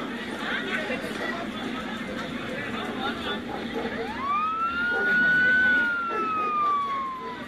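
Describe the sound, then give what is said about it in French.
Urban street sounds recorded on streets in Kenya and played in a sound installation tunnel. A siren glides upward, holds, then slowly falls over continuous crowd chatter and traffic noise. “Avant de pénétrer dans la maison, on passe par un tunnel sonorisé avec des bruits urbains.”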